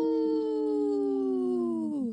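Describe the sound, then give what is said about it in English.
A wolf howls in one long, sustained, tonal note that holds nearly level in pitch and then drops sharply at the end. It is clear and alone, with no talk. “Howl!”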